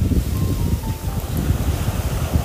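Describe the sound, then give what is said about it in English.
Wind and waves by the ocean in Thailand: gusty wind buffets a low, rumbling wash of surf that churns steadily with small surges throughout. “A little bit of pixie dust, and I could fly. Sitting here by the ocean today,”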